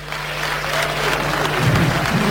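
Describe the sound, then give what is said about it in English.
Congregation clapping during a church service, a steady dense patter of many hands over a constant low electrical hum, growing slightly louder toward the end. “if you are here as a man and you can beat your chest as the since the beginning of this year till now, you can beat your chest that you nobody has seen your nakedness. Clap for yourself.”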